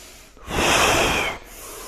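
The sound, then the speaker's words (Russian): A forceful nasal inhale during kriya yoga breathing practice: one long, loud, hissing breath of almost a second, framed by quieter breathy noise before and after. “Мощнее вдох, чтобы он вас прям вытягивал в длину”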